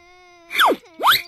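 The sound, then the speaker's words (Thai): A child standing and crying lets out two loud wailing sobs, each sliding downward in pitch, after a faint steady tone. “เอ๊ะทำไมเด็กคนนั้นยืนร้องไห้อยู่ล่ะ”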